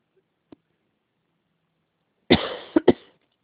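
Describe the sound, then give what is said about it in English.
A short bout of coughing from someone ill with a sinus infection: three quick, loud, harsh bursts close together after a long near-silence broken only by a faint click. “I do have a little bit of a cough, but it's not that bad.”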